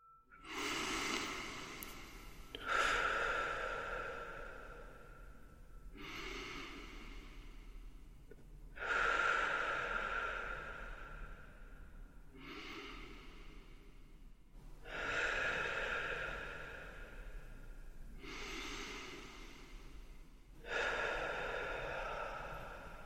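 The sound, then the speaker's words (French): Slow, deep belly breaths in a guided breathing exercise, each long airy inhale and exhale loud and breathy, repeating in an even rhythm about every six seconds. “prenons le temps de quelques respirations amples, avec le ventre”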